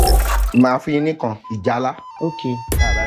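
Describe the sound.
A bright bell-like ding from a Nigerian TV game show, signalling that a contestant has lost. It rings out sharply at the very end after a stretch of people talking and lingers with a clear ringing tone.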